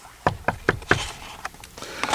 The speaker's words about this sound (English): knocked on the door early the next morning